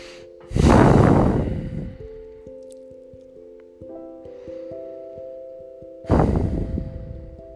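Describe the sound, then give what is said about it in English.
Two long, breathy deep breaths are taken by someone sitting to calm down after a meeting, each a soft rushing burst of air separated by several seconds, with quiet sustained musical tones playing between and beneath them. “So I'm just going to sit here, take a deep breath.”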